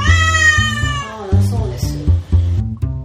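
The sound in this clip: An angry cat meows loudly. A long drawn-out cry falls in pitch, then shorter wavering meows follow, with a person talking alongside.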